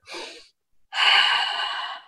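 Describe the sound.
A slow, deliberate breath used as a calming technique: a short inhale, a brief pause, then a longer, steady, airy exhale, with no talking.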